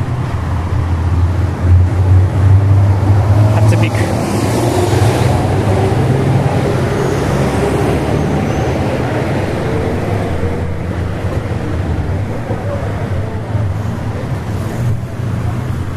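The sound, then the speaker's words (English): Wind blowing outdoors and buffeting the microphone, a steady, loud, low rumble that continues without a break for the whole clip. “Gonna have to be a little creative with the editing with this wind here.”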